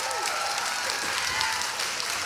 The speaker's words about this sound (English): look, we got lots of people cheering here in Austin.